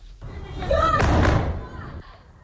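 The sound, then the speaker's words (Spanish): A heavy explosion from a Russian bombing raid on Kyiv, Ukraine: one rumbling, booming thud that swells and then fades, with voices present around it. “Y este es el sonido de los bombardeos rusos sobre la capital de Ucrania, en Kiev.”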